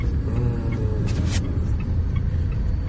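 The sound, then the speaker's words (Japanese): Steady road noise inside a car driving home after practice: a continuous low rumble of engine and tires, fairly loud and unbroken, with no talking. “はい、じゃあ帰りの車内です”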